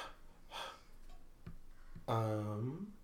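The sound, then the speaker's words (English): Heavy panting and gasps from tired dancers just after dancing. A few breathy bursts are followed by a louder, voiced exhale at the end. “They're just tired. They've been dancing. Panting.”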